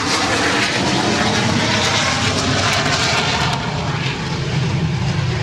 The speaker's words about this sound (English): Somebody ID this jet for me that's about to pass by. It's an F-86. It's going to get really loud any second now here. It's on the roll on 1-8 South.